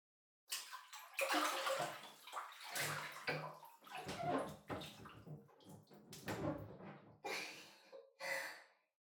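Bath water sloshes and swishes in a wide bathtub as people climb in. It comes as a run of irregular splashing surges over several seconds, without talk.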